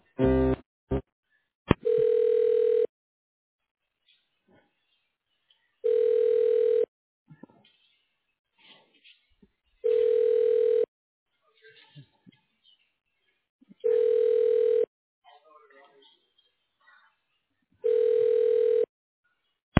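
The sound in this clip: Five evenly spaced ringback tones play on a telephone line while a call is transferred to an extension. Each is a steady mid-pitched buzz of about a second, separated by roughly three seconds of near-silence, with a few clicks at the start.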